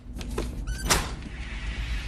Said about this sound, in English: He opens the large metal outer door.